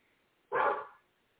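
A dog barks once, a single loud, short bark that rises sharply and fades within about half a second, standing alone against near silence.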